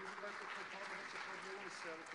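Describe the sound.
A round of applause during a church service for the keyboardist, with steady, fairly faint clapping and a voice talking over it.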